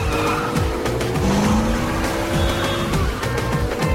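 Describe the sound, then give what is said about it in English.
Tyres squeal as an Audi in a police-escorted convoy takes a sharp 90-degree corner on a closed road, a loud engine roar with a rising skid whine near the middle. “Wax's Audi executes a 90-degree turn at a corner.”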